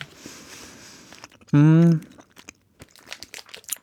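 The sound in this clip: Crunching as someone eats a green-flavoured sweet: a few sharp, dry crunches in the second half, with a brief loud voiced sound just before them.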